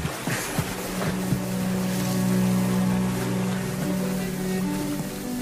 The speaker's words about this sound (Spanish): ¡Qué tranquilidad da el agua!